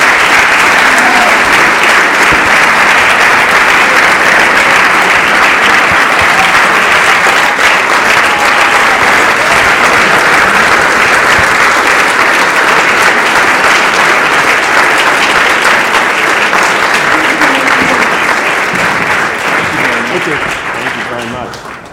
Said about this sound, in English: I know that was a standing ovation for Daniel, because I haven't gotten a standing ovation from a U.S. businessman.